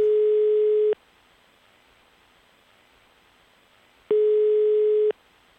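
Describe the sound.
A telephone call ringing out, with two long, steady ringback tones a few seconds apart and a quiet hiss between them.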